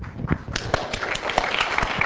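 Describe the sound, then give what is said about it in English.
Scattered applause for conference coordinators: irregular, moderately loud hand claps overlapping in an uneven patter, some individual claps sharper than others. “Liang, George, Hayoung, and Young Bak, you raise your hand so we can give you a round of applause.”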